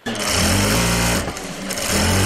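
A sewing machine running in a small village sewing workshop, a loud, steady mechanical whir with a rapid needle rhythm that briefly eases midway before resuming at full speed.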